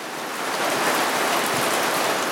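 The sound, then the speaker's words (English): Heavy monsoon rain pours down in a dense, steady hiss that holds an even loudness throughout, with no voices and no breaks in the downpour. “It's monsoon season here. Sayyid's mother, Monwara Khatun, watches as the rain pours down relentlessly.”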